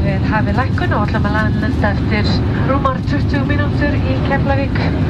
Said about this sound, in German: So, nach einem wirklich spektakulären Anflug hier auf den Flughafen von Keflavik. Wir sind über eine richtige Mondlandschaft geflogen. Man hat richtig die Krater der Vulkane gesehen. Sind wir eben in Keflavik gelandet.